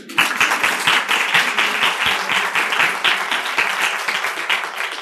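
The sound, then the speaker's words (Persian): Dense audience applause: many hands clap quickly and steadily for about five seconds, with the level holding even from start to finish. “گمش کردم. یه دست بزنید.”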